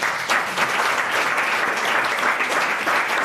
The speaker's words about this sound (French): On peut applaudir toutes ces belles définitions.